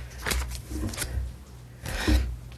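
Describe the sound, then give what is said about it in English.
Soft papery slides and rustles as a card is pulled from a deck during a card draw. A few brief swishes come in quick succession. “I think we got this card last week. I'm going to pull another one.”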